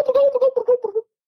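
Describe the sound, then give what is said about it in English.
A human voice imitates the gobble of a Gould's wild turkey with a rapid string of short, throaty, mid-pitched pulses that bubble along for about a second and then stop abruptly. “A Gould is very tall, and it looks like it's got an ostrich track. And when they gobble, they sound like this.”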